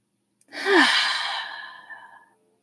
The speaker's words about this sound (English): Another big breath in. Get as audible as you'd like. Last breath.